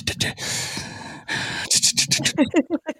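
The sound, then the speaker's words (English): Loud, close breathing into a microphone: a long rough breath, then a string of quick, uneven puffs and gasps toward the end. “You hear how now when he's not even, you know, speaking, how loudly he types, how loudly he breathes.”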